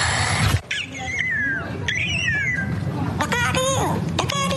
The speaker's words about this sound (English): You hear that? Sounds like a bird saying, look out here, look out here.